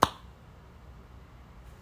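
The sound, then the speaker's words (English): One sharp, crisp hand clap right at the start, followed by near silence. “And yes, I just did like a clap.”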